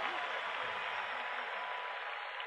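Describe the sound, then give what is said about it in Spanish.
Audience applause for a maestro at a live concert, a faint, steady wash of many hands clapping evenly throughout, with a voice faintly beneath it. “Para el maestro, los aplausos. Fuerte ese aplauso. Fuerte ese aplauso.”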